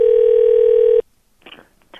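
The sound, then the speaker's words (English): A telephone dial tone as a call is placed: a loud, steady, unbroken tone lasting about a second that cuts off abruptly into near silence with faint handling noise. “I'm calling her right back.”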